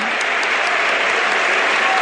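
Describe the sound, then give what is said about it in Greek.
Encouraging applause rises from the stands of a packed Toumba stadium during a national-team football match, a dense, steady wash of clapping that holds evenly loud throughout. “και ακούτε το χειροκρότημα ενθάρρυνσης από την εξέδρα.”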